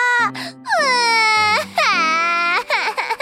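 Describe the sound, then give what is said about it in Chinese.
A voice imitates Mimi the crocodile crying in a children's story: loud, drawn-out wailing sobs that sag in pitch at their ends, broken by a few short catches of breath. “鳄鱼米米难过的哭了起来。 米米，你怎么了？ 犀牛冲冲听到哭声，赶紧跑过来。”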